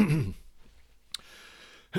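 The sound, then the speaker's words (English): A person clears their throat with a short, rough, voiced burst at the very start, followed by near silence and a faint click. “clear my throat”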